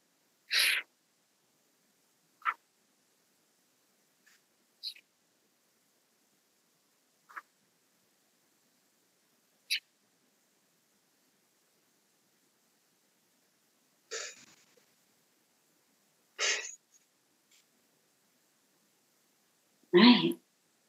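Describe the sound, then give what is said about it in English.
Short, hissing breaths are drawn in through pursed lips, as if through a straw. They are faint and come as a series of brief airy bursts with long silences between them. “imagine that you're sucking the breath in through a straw by pursing your lips. The way that that's going to sound and look is like this.”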